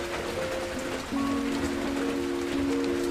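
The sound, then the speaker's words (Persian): Rain patters on the gabled sheet-metal roofs of houses in a continuous, even hiss of drops, with soft sustained tones running alongside. “صدای بارون روی سقف خونه‌های شیروانی”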